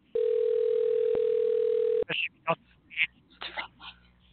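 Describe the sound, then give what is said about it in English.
A telephone dial tone holds steady and loud for about two seconds, then cuts off and is followed by a few short, irregular bursts. “Dialing music.”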